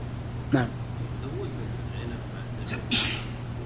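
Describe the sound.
A single sneeze breaks into a lecture, a sharp breathy burst standing out above a steady low hum, with a fainter short sound a moment before it.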